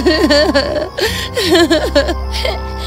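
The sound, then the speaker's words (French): A voice imitates two tired girls crying after a full day of walking, with wavering whimpers and sobbing cries that rise and fall in pitch in short, uneven bursts. “Elles se mirent à pleurer en s'effondrant dans l'herbe.”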